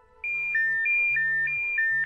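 An alarm clock ringtone goes off: a loud electronic melody of two alternating high notes that repeats in steady cycles, with soft low blips underneath and no voices.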